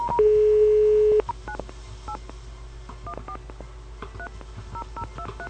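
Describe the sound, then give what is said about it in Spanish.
A telephone call is placed: a steady dial tone holds for about a second, then many short paired keypad beeps follow in quick, uneven bursts at moderate volume over faint background hiss. “para ver qué es lo que ocurre y si es que el señor Mesarina se digna en responder nuestra llamada”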